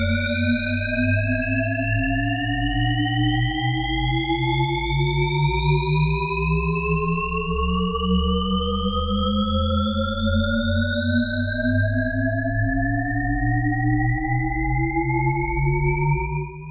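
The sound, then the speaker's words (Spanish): Shepard tone auditory illusion: stacked tones glide steadily upward together, creating the sense of a pitch that rises endlessly. The sound is loud and continuous over a sustained low drone, with no voices. “Este efecto que estamos escuchando se llama efecto Shepard y consiste en crear una ilusión sonora que nos haga percibir que el sonido nunca deja de subir en su afinación.”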